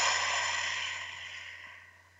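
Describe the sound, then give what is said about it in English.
A deep breath exhaled through the mouth during a guided relaxation exercise, a soft breathy whoosh that starts full and fades steadily over about two seconds, with no talk over it. “One more big breath. Out through your mouth.”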